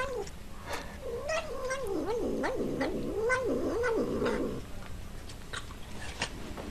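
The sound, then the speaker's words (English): A cat eating spoonfuls of sour cream makes a run of rapid, wavering mid-pitched mumbling vocalisations like "num num", with clicky chewing and lapping sounds that continue after the vocalising stops. “there is in fact reports of a cat that says num num num num num num num when it eats spoonfuls of sour cream”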